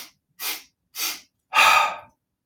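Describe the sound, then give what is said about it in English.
Breathing-exercise round: three quick, sharp sniffing inhales through the nose, evenly spaced, then a longer, louder rushing exhale out through the mouth, heard alone with silence between the breaths. “It's going to be three quick inhales through the nose and then a loud, an audible exhale out through the mouth. So one round just looks like this.”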